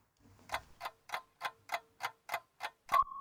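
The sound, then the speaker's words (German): Alarm clock wake-up call: nine crisp, evenly spaced ticks, then a high electronic alarm tone starts right at the end. “Weckruf. Ja, den hört ihr.”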